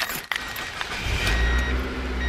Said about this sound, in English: Meet my new used car.